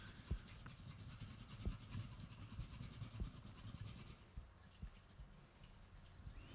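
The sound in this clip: A container of liquid is shaken by hand to whip up foam. The faint, steady sloshing and rubbing strokes repeat over several seconds, with occasional soft knocks and no talk.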